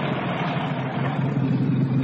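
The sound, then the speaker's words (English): Continuous engine drone of a car pulling over to the side of a rough road, a steady low rumble that holds level throughout with no clear revving. “I shall pull over here into the side and let some of the lorries pass first.”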